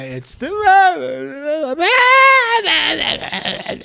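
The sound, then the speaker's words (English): A voice imitates a child crying nonstop on a plane: a loud, strained wail in long, continuous bursts whose pitch wavers, rising and falling erratically. “Because I had a crying kid two rows in front of me, and the kid cried from takeoff to the time we landed. And it's not like a regular whine, like,”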